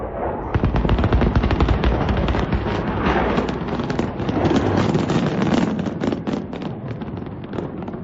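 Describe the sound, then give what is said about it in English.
Gunfire from an AI-generated video of a magic carpet firing at an F-35 jet, a loud, continuous barrage of rapid overlapping shots and crackles that runs without a break. “Let me play some Boomer AI. Some of it's kind of funny. The magic carpet firing at the F-35.”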